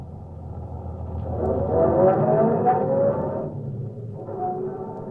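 A car is being driven, its engine a low, steady rumble that swells through the middle, eases off, then picks up slightly again near the end, with no talk.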